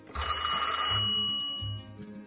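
A telephone rings with a call from a wife. Bright, sustained ringing tones sound over bursts of low buzzing.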